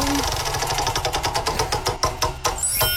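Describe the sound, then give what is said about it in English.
Rapid, even ticking of a prize wheel spun to pick a party song game, the clicks coming fast and steady, then spacing out as the wheel slows near the end. “Let's spin the wheel first and find out what we're playing.”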